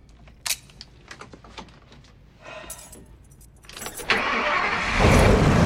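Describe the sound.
Keys jangle and click in an ignition, then an RV engine turns over and catches, its rumble rising into a loud steady roar over the last two seconds.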